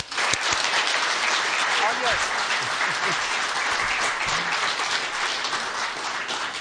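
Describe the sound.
Audience applause welcoming an author onto the stage at a book event: steady, dense clapping that holds at an even level from start to finish, with some voices mixed in.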